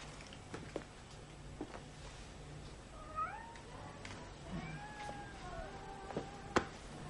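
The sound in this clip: A cat meows faintly, a few short, rising and falling mews over a low steady background hum, with occasional soft clicks and taps.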